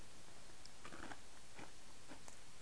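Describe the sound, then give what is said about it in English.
Faint crisp crunches of someone biting into and chewing a vanilla wafer, a few soft snaps spaced apart over low steady hiss. “You take a bite of the vanilla wafer?”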